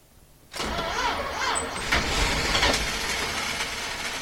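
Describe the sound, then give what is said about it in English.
A car engine cranks as someone tries to start it while pressing the gas. After a brief quiet moment, the starter turns over in a steady, rhythmic churn that continues for about four seconds without the engine catching. “So if I start the turning over process and then hit the gas, I think it'll start up. It might be a little rough, but it will start.”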